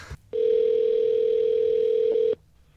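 A telephone dial tone sounds as a call is being placed: one steady, unbroken low tone holds at even loudness for about two seconds and then cuts off abruptly. No voices are heard.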